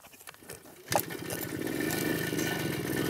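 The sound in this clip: A motorcycle engine idles with low, uneven pulses, then a throttle blip lifts it into a louder, steady, rumbling run that holds to the end.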